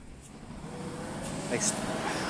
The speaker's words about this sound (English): truck coming by again. Sorry, this thing is so loud.